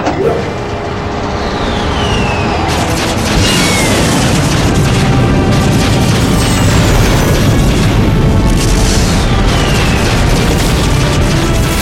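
Weapons firing and explosions: dense, continuous loud blasts and rumbling bursts, with a few sharp sweeping zaps cutting across the barrage.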